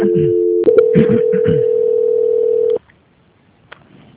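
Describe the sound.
A steady single-pitch telephone tone sounds while a call-centre call is being transferred. It holds for almost three seconds with a voice briefly over it, then stops abruptly and leaves near silence with one faint click.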